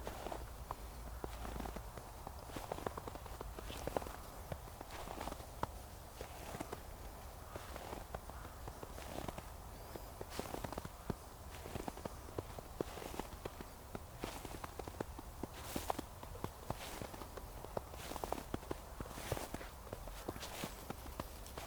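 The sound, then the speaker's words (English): Faint footsteps crunch through snow alone, one step after another in a steady walking rhythm for the whole stretch. “while I walk in the snow”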